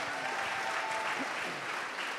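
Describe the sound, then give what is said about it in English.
Faint, steady audience applause after a round of a quiz-style game, a continuous patter of many hands with no clear breaks. “Let's give another round of applause.”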